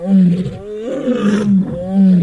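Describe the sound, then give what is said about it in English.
Roars of three female lions: a few deep, moaning roars with strong low harmonics run back to back and overlap into a loud, continuous sequence. “Here are the actual roars of 3 female lions that Karen McComb from the University of Sussex used in this ingenious experiment.”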